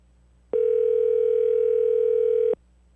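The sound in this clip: A ringing tone on an outgoing telephone call: one steady, mid-pitched electronic tone that lasts about two seconds. It starts and stops abruptly and plays alone, with no talk.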